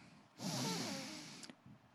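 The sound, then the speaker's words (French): One deep breath drawn in, a breathy rush that swells quickly, then tapers over about a second, followed by a few faint clicks. “On prend une respiration.”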